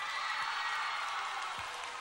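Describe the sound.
Applause from an audience welcoming a singer onto a stage: steady, dense clapping that holds at an even level throughout, fairly faint, with no voices standing out.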